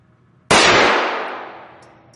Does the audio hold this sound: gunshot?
yes

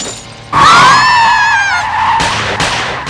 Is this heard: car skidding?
yes

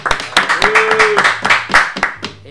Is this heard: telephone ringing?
no

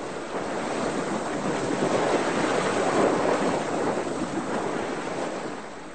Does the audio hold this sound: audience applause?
no

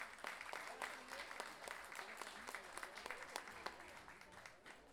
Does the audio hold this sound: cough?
no

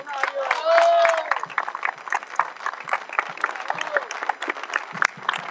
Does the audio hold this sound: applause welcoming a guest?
yes

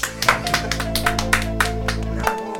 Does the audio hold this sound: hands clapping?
yes

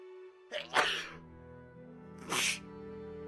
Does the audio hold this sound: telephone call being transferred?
no

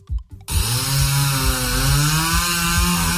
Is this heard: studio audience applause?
no

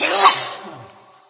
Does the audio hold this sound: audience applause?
no

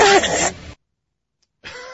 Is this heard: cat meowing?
no

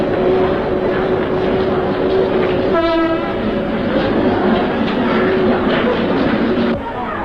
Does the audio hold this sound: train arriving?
yes

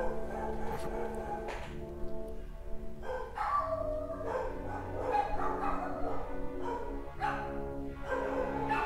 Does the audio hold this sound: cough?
no

